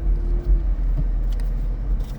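Steady low engine and road rumble from a white van driving home behind a truck. The noise stays even and continuous throughout, with no voices.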